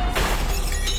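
A second car mirror smashes against an underground parking pillar, making a crunching, shattering crack over a continuous low rumble, with a lighter rattle near the end.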